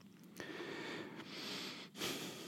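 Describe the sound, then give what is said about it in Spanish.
A deep breath drawn through the nose and mouth, a soft breathy rush of air with a brief dip partway through, heard alone without speech. “Aquí respiro profundo y paro”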